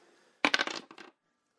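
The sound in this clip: Dice clatter in a quick burst during a home dice game, rattling for well under a second as a cluster of sharp clicks before falling quiet.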